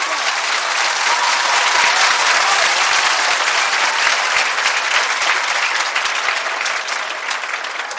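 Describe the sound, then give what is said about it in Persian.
Sustained crowd applause at a wedding celebration, dense, vigorous clapping that holds steady for about eight seconds and eases slightly near the end. “شکر خدا عروسی علی و فاطمه است. شکر خدا برای مادر پدرت محکم دست بزن.”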